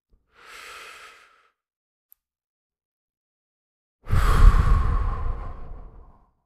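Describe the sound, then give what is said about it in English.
A slow, relaxing exhale during a breathing relaxation exercise comes as a long, loud breathy outflow of about two seconds that fades gradually. A short, faint breath comes before it, and no one talks. “then let yourself exhale and let the body relax and notice how the body relaxes as you exhale.”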